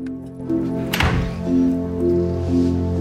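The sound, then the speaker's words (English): A door opening into a prison visiting room gives a single dull thunk, a short knock over a steady droning tonal background. “A door is opened and Alison troops in”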